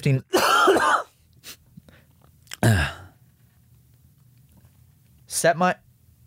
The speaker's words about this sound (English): Can you not cough while I'm talking to Siri?